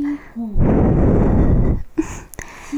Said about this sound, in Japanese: ふうふうされるのも弱いのかな？